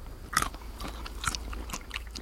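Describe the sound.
Biting into a fresh, tender pistachio just after harvest gives a few quiet, crisp crunches with soft chewing sounds in between.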